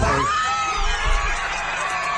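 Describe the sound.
A crowd cheering and shouting in celebration of a World Cup final, a dense, steady roar of many voices with occasional whoops.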